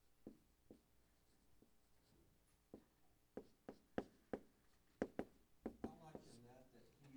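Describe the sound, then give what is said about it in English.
Marker writing on a board during a Bible lesson, a series of quiet taps and short strokes that grow steadier and louder, then a brief scratchy flourish at the end. “I'm going to write this up here just above it so you can see it.”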